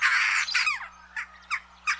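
Jackdaw calls: a long, harsh, loud squawk opens, followed by a few shorter, clipped chack-like calls spaced apart, sounded alone without other voices.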